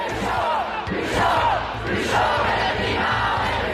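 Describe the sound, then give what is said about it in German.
A crowd of youth climate protesters in Lausanne chants a slogan in unison, many voices loud and rhythmic, repeating in steady bursts throughout. “Wir sind heißer als das Klima, skandierte die dortige Klimajugend, lauter und vielstimmiger als anderswo.”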